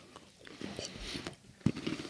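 Someone bites into a nut-coated sweet with a lumpy coating: one crisp crunch stands out, surrounded by softer chewing noises, all quiet.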